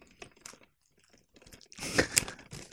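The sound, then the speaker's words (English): Plastic wrap crinkling and tearing as a wrapped package of Blu-ray films is opened, with faint scattered crackles at first, then a louder run of crunchy tearing. “I'm gonna unwrap this”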